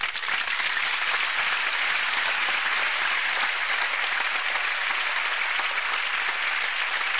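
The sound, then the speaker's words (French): An audience applauds and acclaims a mother after a blessing, with seven seconds of sustained, even clapping from many hands that neither builds nor fades. “Alors tous ensemble, répondons à son sourire en l'acclamant très fort.”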